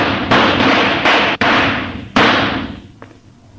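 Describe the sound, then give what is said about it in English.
Gunshots ring out in a police standoff with armed men cornered at a dead end: a few sharp, loud bangs, each trailing into a long, decaying rumble. The last shot is fainter, and no voices are heard. “Okay, I quit. You got Richmond, I quit. Now don't shoot anymore. Please don't shoot anymore.”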